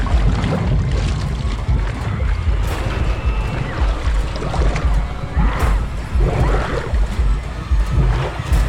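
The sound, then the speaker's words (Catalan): Liquid floods a bed and submerges a girl: continuous churning, sloshing water with bubbling swirls, loud and steady throughout. “Mira al seu voltant i observa com el líquid comença a inundar-li el llit fins a submergir-la per complet. La Roni s'agita, completament submergida.”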